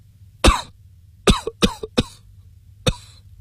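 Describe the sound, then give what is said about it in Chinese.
A man's violent coughing fit: five harsh, explosive coughs. A few come in quick succession with brief gasps between them, then there is a pause before one final cough. “刘相公说完又是一阵剧烈咳嗽，好容易咳定”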